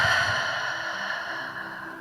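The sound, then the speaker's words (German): A long, steady, airy breath from a guided breathing exercise of deep inhales through the nose and long exhales through the open mouth, fading slowly over about two seconds with no talking. “nimm erst einmal ein paar tiefe Atemzüge durch die Nase ein und durch den geöffneten Mund lang aus.”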